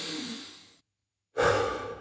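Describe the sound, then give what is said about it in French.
Heavy breathing while catching breath: a long, fading exhale or sigh, a short silent pause, then a loud new breath that starts abruptly and stays strong. “Allez, on reprend notre souffle.”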